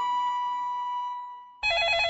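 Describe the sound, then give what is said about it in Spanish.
A telephone rings with a steady, sustained electronic tone that softens slightly, then cuts to a brighter, warbling burst of ringing. No voices. “¿El teléfono? ¿Quién puede ser?”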